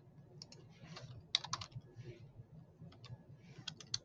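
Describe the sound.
Computer keyboard typing: faint short bursts of key clicks, some with a few clicks in quick succession, over a low steady hum.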